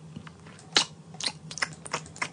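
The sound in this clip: Sharp computer mouse clicks as a radio presenter works a studio phone-line system; several crisp, irregularly spaced taps, fairly quiet, with no talk.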